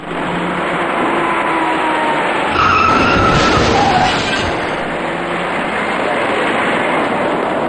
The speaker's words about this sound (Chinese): 驾驶这辆深色小客的司机完全没有注意到前方的车辆已经减慢车速，在毫无措施的情况下，深色小客严重追撞到了前车